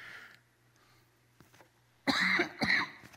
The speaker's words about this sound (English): you know the crud that started last week? It's lingering in the form of a very nasty cough this week, so excuse me if I have to do that.